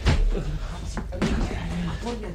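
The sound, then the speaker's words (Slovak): A door is shut ahead of being barricaded again, giving a few dull thuds and knocks. Voices talk over and around the impacts. “Zatvorte dvere a znovu ich zabarikádujte.”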